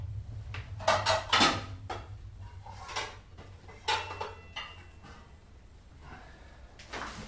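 Dishes clatter as a casserole dish is taken out of a kitchen cupboard. Several faint knocks, clinks and thuds are spread out over a steady low hum.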